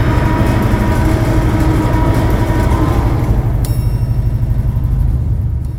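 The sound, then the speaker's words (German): A nuclear reactor powering up gives a loud, steady low rumble with a rapid pulsing texture throughout, and a thin high tone enters about midway. “Der Reaktor fährt wieder hoch. Leistungsstufe 1.”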